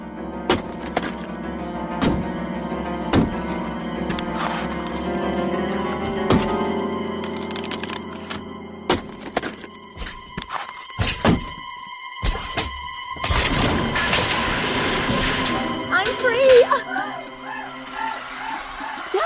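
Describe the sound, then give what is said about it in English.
A battle axe strikes again and again as it hacks at something during an escape from poisonous gas. Many heavy, irregular thuds and sharp cracks ring out, with bursts of breaking and splintering between them. “Stand back. I'll use the battle axe.”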